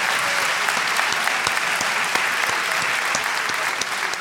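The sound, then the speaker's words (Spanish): An audience applauds a child's drawing with dense, steady clapping that holds at an even loudness for the whole stretch without a break. “Un aplauso para Dante. Muy bien.”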